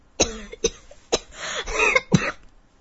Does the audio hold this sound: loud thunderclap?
no